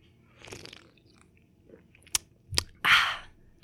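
Someone chewing and eating something crispy: a few sharp, dry crunches scattered through the quiet, building to the loudest, longest burst of crunching at the end, with no talk.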